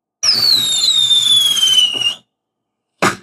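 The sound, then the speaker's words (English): Fireworks sound effect celebrating a paid-off bank loan: a long, loud, high whistle that slides slowly downward in pitch, then a short silence and a single sharp bang. “Yes, let the rockets glare.”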